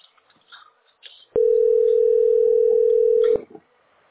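A telephone tone sounds during a call to the electricity company: a single steady, loud tone lasting about two seconds, with faint, brief noises before and after.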